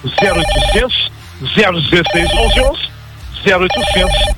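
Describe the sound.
Telephone ringing: a bright, warbling electronic ring repeats in three loud bursts of about a second each, with short gaps between them.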